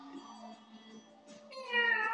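A cat meows, a drawn-out tonal cry that grows louder and rises toward the end, over a steady low humming tone.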